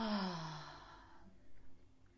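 A long sighing exhale after stretching the arms overhead, a breathy rush of air with a soft voiced tone that falls in pitch and fades away over about a second, followed by near silence.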